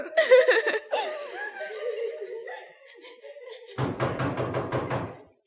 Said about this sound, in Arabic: افتح يا نبقى يا نبقى. طول بالك جرى ايه؟ هتكسر الباب ولا؟